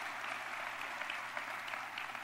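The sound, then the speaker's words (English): Audience applause for a civic council at a city announcement, a dense, steady patter of many clapping hands, even and sustained throughout without voices. “Let's give the Hispanic Heritage Council a round of applause.”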